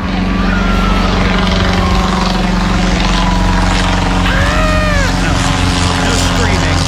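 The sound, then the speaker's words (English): Engine of a Wright B replica flyer aircraft, a loud, steady, unbroken propeller drone with a low humming tone running underneath the whole time. “that's actually the sound of the Wright B replica flyer.”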